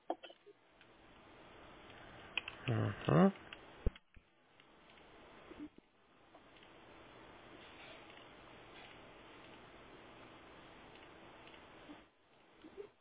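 Typing on a computer keyboard, a steady run of light, rapid clicks with a brief louder burst of taps early on, then an even patter until it stops near the end.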